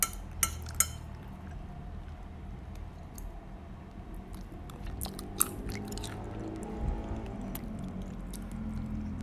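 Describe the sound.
Crunchy food is bitten and chewed in a quiet crunch test, with a few sharp crisp cracks near the start and around the middle over a continuous soft munching.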